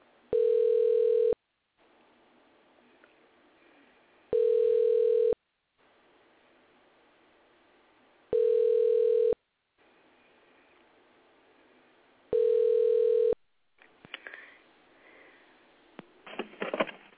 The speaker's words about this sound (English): All right, let's see what happens with my dial here. It's dialing. It's ringy-dinging.